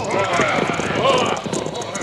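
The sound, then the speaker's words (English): Clip-clopping hooves of horses ridden across a road, a quick, busy run of hoofbeats in a steady rhythm, fairly loud, with people's voices mixed in. “Ride your horse across the road”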